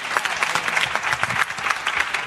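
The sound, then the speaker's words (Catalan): Audience applause at a public event: a dense, even patter of many hands clapping, holding steady throughout. “Molt bé, un aplaudiment, no?”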